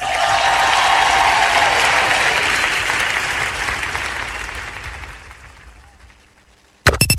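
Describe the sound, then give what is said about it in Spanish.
Audience applause swells as a dense wash of clapping, loud at first, then gradually thinning and fading out, followed by a sharp burst of sound at the very end. “Démosle un fuerte aplauso”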